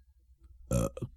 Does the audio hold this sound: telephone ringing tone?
no